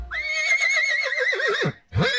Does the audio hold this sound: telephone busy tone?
no